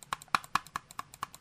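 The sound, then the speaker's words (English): An old computer mouse clicks sharply in a quick, evenly spaced run of many crisp, light taps. “Here's the sound of my old mouse.”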